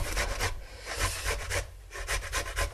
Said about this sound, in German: Die Zwiebel, die reibt er dann auch.